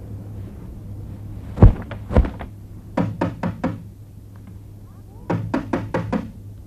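Knocking on a door: two heavy thumps come first, then two separate bursts of about four quick, sharp raps each, over a low steady hum.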